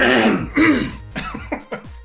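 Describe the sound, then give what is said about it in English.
People clear their throats together in a few rough, raspy bursts and coughs. The first bursts are the loudest, and shorter, fainter ones follow in an uneven rhythm. “Alright, everybody get a good throat clear in.”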